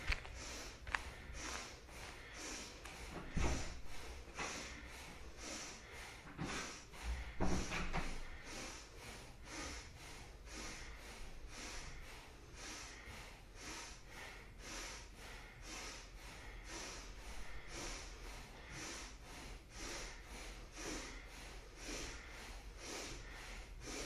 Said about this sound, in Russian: Поехали, бхастрику. Дышим. Дышим много и долго, и спокойнее.